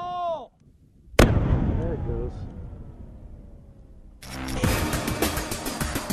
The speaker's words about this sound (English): The special operators set fire to the lab and blow up the drugs and processing equipment.